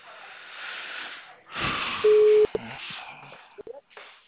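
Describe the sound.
A telephone call's ringing tone: a single steady, mid-pitched beep lasting about half a second, set among soft rustling and a few faint clicks on a narrow, phone-like line.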